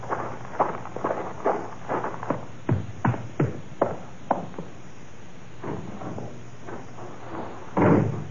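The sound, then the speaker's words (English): A door is tried and opened in a radio drama: a run of many small clicks, knocks and rattles at an uneven pace, ending with a louder, fuller thump. “Let's try the door.”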